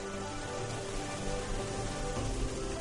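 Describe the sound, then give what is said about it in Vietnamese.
Heavy rain pours down in a steady, dense hiss that stays even and loud from start to finish, with no clear breaks. “Mưa vẫn trút xuống tầm tã, giống như đang muốn quét hết mọi dơ bẩn và tội ác của thế gian.”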